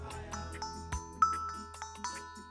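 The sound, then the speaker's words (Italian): A small hand bell rings in a few bright, brief strikes, each leaving a short ringing tail, heard over a steady background hum. “C'ho pure una campanella”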